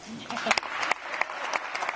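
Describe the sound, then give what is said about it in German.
Applause from an audience at a German political event, irregular claps and sharp accents forming an uneven patter over a steady crowd wash, with a voice talking underneath. “Also Applaus für Olaf Scholz und für Karl Lauterbach”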